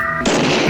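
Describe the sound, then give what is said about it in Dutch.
A single gunshot from the film Westworld bursts in sharply after a brief electronic tone, then rings out loudly and fills the rest of the short moment. “En dan wordt hij neergeschoten door de gast.”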